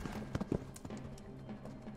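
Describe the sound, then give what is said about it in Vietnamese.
Clip-clop of a thin horse's hooves as it runs on through the night, a few quiet, uneven hoofbeats over a soft low background. “Con ngựa chạy cho đến khi trời sáng”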